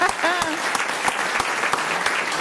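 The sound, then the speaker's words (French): Audience applause for guests on a French-language talk program: steady clapping with sharp individual claps standing out over the wash, following a brief voice at the start. “On peut vous applaudir, c'est vrai.”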